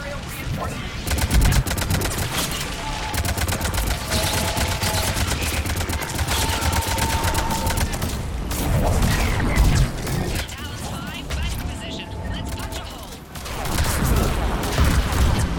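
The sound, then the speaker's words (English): Video game gunfire during a shooter session, a dense, loud stream of rapid shots cracking in quick succession almost without pause, with clattering impacts mixed in across the whole stretch. “Let's shoot at this guy.”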